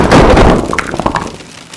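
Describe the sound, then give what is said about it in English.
Falling hailstones pelt down in a loud, dense clatter of many hard impacts, heaviest at first and then thinning into scattered sharp, glassy knocks and pops. “Just then, it started to hail. It's so beautiful. And for 1 second, Shoshana forgot all her problems and closed her eyes to appreciate the sound of the falling hailstones.”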